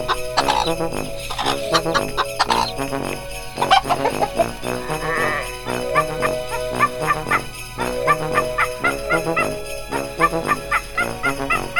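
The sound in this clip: Chicks and a turkey call in a busy, overlapping stream of chirps and cries that runs loud and steady throughout, with no talking.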